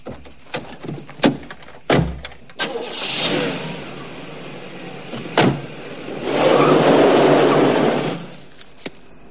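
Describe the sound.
A car pulls away from a bar: a few sharp door thumps and clicks come first, then the engine runs and accelerates in two louder surges before fading.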